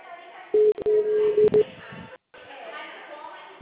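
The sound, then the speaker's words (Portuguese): Telephone keypad tones as a number is dialed: a quick series of short, steady electronic beeps at one pitch, standing out clearly above a low background hiss. “Ó, eu tô discando”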